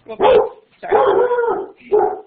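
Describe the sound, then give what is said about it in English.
A startled dog barks three times. Each bark is sharp and full-throated, the middle one longer and drawn out, with brief quiet gaps between them. “The dog got a little startled by that.”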